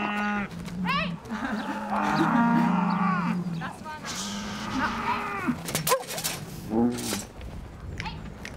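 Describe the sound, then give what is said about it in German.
Dairy cows on a pasture moo repeatedly in long, low drawn-out calls that overlap one another, with a few sharp knocks between them. “Und dann stehen da noch die anderen Milchkühe auf der Weide nebenan. Die sehen sie jetzt zum ersten Mal und freuen sich anscheinend.”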